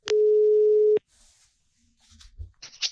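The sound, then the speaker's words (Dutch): An outgoing telephone call rings once as a loud, steady single-pitched tone lasting just under a second, followed by quiet and then faint clicks and soft rustling. “Ik ga Hans bellen.”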